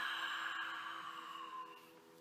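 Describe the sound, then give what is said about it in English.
A long whispering exhale through an open mouth during a yoga breathing exercise, a steady, soft, breathy hiss that holds for about two seconds and gently tapers off, with no talk. “exhale, open the mouth, making a whispering sound.”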